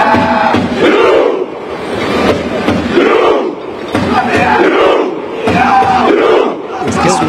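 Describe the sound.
Norwegian football fans cheer and chant in the streets of Miami, a loud crowd roaring in rhythmic waves that rise and dip over and over without pause.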